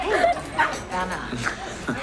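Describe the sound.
A dog barking and whimpering, with a few short high yips and whines scattered across two seconds, moderately loud and uneven.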